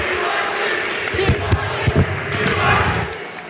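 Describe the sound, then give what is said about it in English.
A crowd chants at the end of a political debate. The roar is loud and sustained, broken by a few sharp bursts, and swells again toward the end. “Listen to the TYT chants at the end here.”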